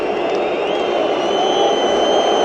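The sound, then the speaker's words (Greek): Football stadium crowd shouting and cheering at a penalty, urged by a player to get louder: a loud, sustained roar of massed voices with no pauses and thin high whistling over it. “Ο Ράγια ζητά από το κοινό να φωνάξει περισσότερο σε αυτό τον χαμό τον οποίο γίνεται.”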